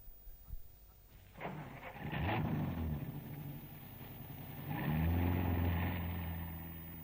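A car engine starts and the car drives off: a faint, low rumble with rising revs that swells again near the end.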